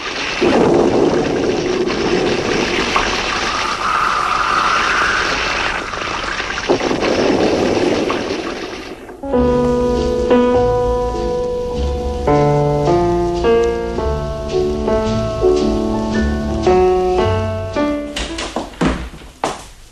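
Storm with a raging sea in a radio drama: roaring wind and surging waves form a loud, swelling wash for about nine seconds before music takes over.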